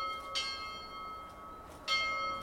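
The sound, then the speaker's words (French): A roadside chapel bell ringing with two clear metallic strikes about a second and a half apart. Each strike carries bright overtones and leaves a lingering ring that fades slowly. “Et oui, la cloche est toujours là et elle sonne.”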